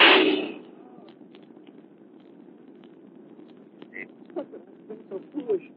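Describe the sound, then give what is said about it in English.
A single gunshot from a 1938 radio drama opens with a loud, sharp blast that quickly fades into low hiss. Faint voices and small noises follow later. “I shot you. I am not badly hurt, Walter. You better put that gun down now.”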